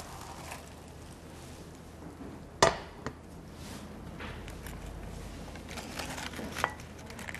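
A hot pan is flipped onto a plate while cooking. One sharp clattering knock is followed by a smaller clink, then faint taps and light scraping.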